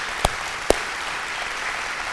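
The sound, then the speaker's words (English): Church audience applauding at a Christmas service, a steady wash of clapping with two sharp, louder claps standing out near the start. “So can we give it up for Brooke?”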